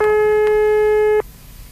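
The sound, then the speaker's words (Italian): Telephone ringing tone on an outgoing call: one loud, steady, mid-pitched tone held for about a second, then cut off abruptly into a low background hiss. “farei una chiamata alla presentatrice. Beh, mi sembra. Vediamo se risponde”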